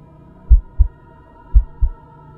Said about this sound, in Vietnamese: Trái tim của tôi đập thình thịch